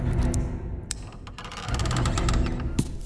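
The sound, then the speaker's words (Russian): A door lock being picked gives off a few sharp metallic clicks and ratcheting, creaking mechanism sounds over a steady low background rumble. “а затем кто-то начал вскрывать замок.”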